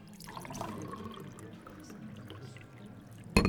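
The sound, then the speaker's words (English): Coffee pouring into cups: a faint, steady trickle of liquid runs throughout, soft and continuous, ending in one brief, sharp knock. “Persey began the never-ending filling and refilling of coffee cups and teapots.”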